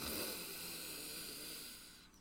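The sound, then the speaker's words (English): A long, slow, deep breath drawn in through the nose: a soft, steady airy hiss lasting about two seconds before tapering off at the end. “take a really long, slow, deep breath in, really strong through your nose”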